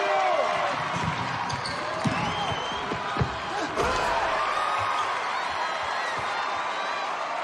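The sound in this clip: A basketball slam dunk during a game involving a St. Vincent team, heard under steady crowd noise and cheering, with a few sharp thumps and voices scattered through the din.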